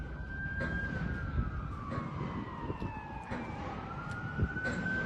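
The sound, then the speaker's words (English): An ambulance siren heard from a hotel rooftop, a loud wailing tone that glides slowly downward and then climbs back up, over a continuous low rumble of road traffic. “That's just an ambulance. Ambulances have the loudest damn sirens. They're so annoying.”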